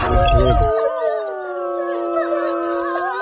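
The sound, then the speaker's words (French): Wolves howl in a chorus of several overlapping, long, sustained voices that waver and glide up and down in pitch. A brief low, rough burst comes at the very start, and the howls continue loudly to the end. “Oula, il y a des loups là.”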